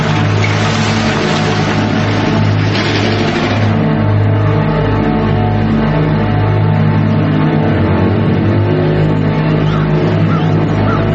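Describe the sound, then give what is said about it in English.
A beat-up blue pickup truck pulling up: a loud, steady engine rumble with a humming harmonic drone and slight shifts in pitch as it rolls in. “A pickup truck pulls up in front of a sign that reads Yahat's Motel, 1/2 mile.”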